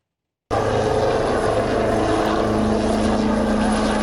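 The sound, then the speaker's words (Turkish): Steady propeller drone of a military helicopter taking off at an air force anniversary air show, a loud continuous roar with a low pulsing hum and a rising tone, starting abruptly after a brief silence and holding level throughout. “Gökyüzü önce Gökbey'in pervane sesleriyle yankılandı, hür kuş ve hürjet peş peşe havalandı.”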